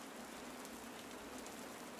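Steady rain falls outside a temple during a ritual on a cold day: a dense, even hiss of drops that runs unbroken throughout, with no voices.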